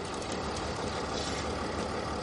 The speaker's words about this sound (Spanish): Un coche patrulla se cruza con Mike. Se paran.